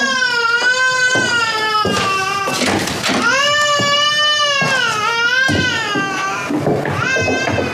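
A baby cries after waking up. It is a loud, continuous wail of harmonic cries whose pitch rises and falls, with brief catches of breath between long sobbing phrases.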